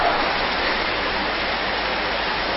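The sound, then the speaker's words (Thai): Steady rain falls at a temple gathering before a sermon, a dense, even hiss with no single drops standing out. It stays loud and unbroken throughout, with no voices. “ฝนตกเปาะแตกชวนให้เหงานอนมากกว่า”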